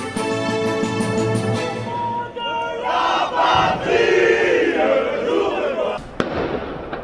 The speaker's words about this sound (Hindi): ये आवाज है फ्रांस के सबसे प्रसिद्ध स्मारक आर्क द ट्रायंफ के बाहर नारे लगाते येलो वेस्ट मूवमेंट में शामिल प्रदर्शनकारियों की।